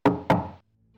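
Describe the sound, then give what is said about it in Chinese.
Two knocks on a door, close together. Each is a heavy, resonant thud with a short decay, and quiet follows. No voices are heard. “他开始敲门，”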